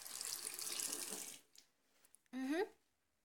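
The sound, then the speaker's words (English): Water runs from a tap into a sink in a steady, fairly soft rushing stream for well over a second, then cuts off; a brief rising tonal squeak follows moments later. “I just need to use this tap here by the sink.”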